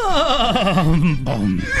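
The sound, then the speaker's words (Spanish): A small horse whinnies in one loud, drawn-out neigh that quavers with a rapid tremolo and slides lower in pitch as it goes on. “Ese caballito nos está llevando al...”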